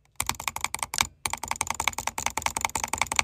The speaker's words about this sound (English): But another way is something called butterfly clicking, where it's like you take your two fingers and you click them almost like the wings of a butterfly. And let me just say that it's super loud. Just take a listen.